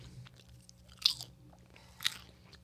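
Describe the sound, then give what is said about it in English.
White cheddar popcorn is crunched and chewed with two distinct crisp bites, softer chewing between them, all fairly quiet and with no talking. “This popcorn makes me like actually be able to swallow the wine”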